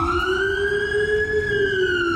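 A Polish emergency vehicle siren sounds as one loud, continuous tone whose pitch climbs gently toward the middle and then eases back down, with no pauses and no voices.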